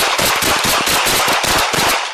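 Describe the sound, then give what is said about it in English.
Gunfire from two police officers shooting together. A dense, loud burst of many rapid cracks runs almost without pause for about two seconds, then cuts off. “Both officers fire, shooting Blevins four times.”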